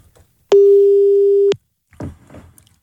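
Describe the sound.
A telephone call tone sounds while a call is being placed to a phone. One steady, clean electronic tone holds for about a second, followed by brief faint sounds.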